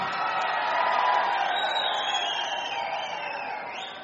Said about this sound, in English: You're singing very well, I must say. This is a really good audience.